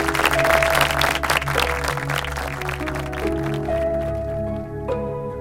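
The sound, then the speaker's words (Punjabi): Audience applause greets a special performance by a local village team at an event before a politician: dense, steady clapping that thins slightly toward the end, with sustained musical tones running underneath. “ਲਓ ਜੀ, ਪੇਸ਼ ਹੈ ਜੀ ਤਾੜੀਆਂ।”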